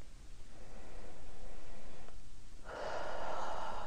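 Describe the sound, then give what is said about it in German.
Slow, deep inhalation during a guided breathing exercise: soft, airy breath noise that holds steady, dips briefly, then swells into a stronger intake toward the end. “Und nochmal ganz liebevoll einatmen.”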